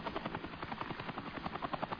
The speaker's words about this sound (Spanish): Aquí viene este antiguo helicóptero de la Unión Soviética. Es un Mi-8.